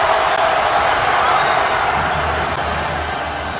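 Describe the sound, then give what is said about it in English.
Temple students roar and cheer as they storm the basketball court after a 66-64 win over Villanova in Philadelphia, a dense, steady crowd din that eases slightly toward the end. “and the noise you hear are the Temple students storming the court.”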